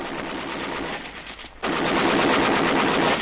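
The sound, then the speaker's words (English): Sustained machine-gun fire, a dense, loud rattling as men open fire on a fleeing man. The chatter runs steadily, dips briefly partway through, then resumes louder. No voices. “They've opened fire on him. Shoot quickly.”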